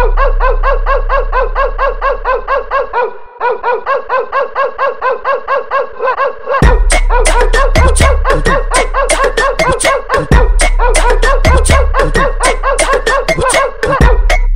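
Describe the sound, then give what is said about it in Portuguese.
Many dog barks repeat in a rapid, even rhythm over a heavy, pulsing bass beat in a music track, loud and dense throughout. “Olha os cachorros latindo.”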